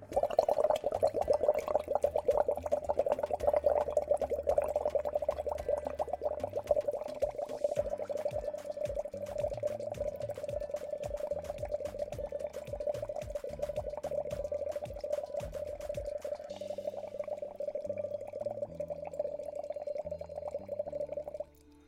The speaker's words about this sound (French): prendre une paille assez petite et de souffler légèrement à faire des bulles, mais toujours régulières dans le récipient.